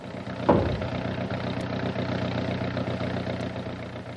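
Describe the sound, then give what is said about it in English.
Aircraft motors start up as a steady, low engine drone, with a brief knock near the beginning, then an even rumble that holds without breaks. “You'd better start up the launch and get clear before I start the motors.”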